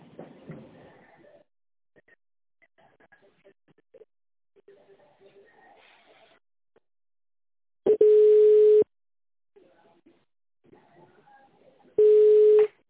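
Telephone line tone while a call is transferred: two steady, mid-pitched beeps of just under a second each, about four seconds apart, set among long stretches of near silence with faint scattered noises.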